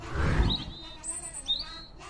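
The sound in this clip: Thin, high chirps of a small, injured sparrow: a few brief tweets, faint, over a soft low rumble.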